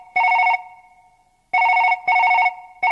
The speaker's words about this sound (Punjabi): ਮੈਂ ਮੱਦੀ ਨੂੰ ਫੋਨ ਕਰ ਲਾਂ।